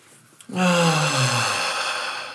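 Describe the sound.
A long, slow voiced sigh, exhaled as a demonstration of a peaceful breath. It opens with a brief soft intake, then a steady, breathy tone lasts about two seconds while its pitch sinks gently toward the end.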